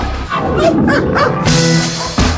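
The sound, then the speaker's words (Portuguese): A chocolate labrador police dog barking, with a few loud, high yips and whining barks that come in quick, uneven bursts, with no voices. “Após esse labrador chocolate cheio de simpatia, é o cara no batalhão de ações com cães do Rio de Janeiro.”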